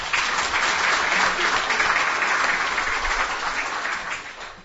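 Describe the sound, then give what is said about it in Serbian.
Steady audience applause at an evening stage program, given in thanks to the event's sponsors; dense, even clapping holds loud throughout and thins slightly at the end. “I za njih jedan aplauz.”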